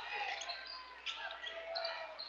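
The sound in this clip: Basketball dribbled near the half-court line during a boys' high school game, soft bounces nearly lost in a steady wash of crowd noise and a speaking voice, quiet overall.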